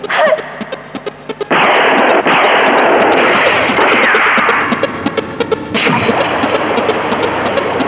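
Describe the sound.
Heavy gunfire: many sharp, rapid shots crack over a loud, sustained roar of noise that swells and dips but never stops.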